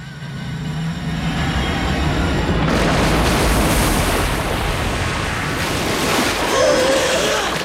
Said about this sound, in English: She plunges downwards and hits the water with a huge splash.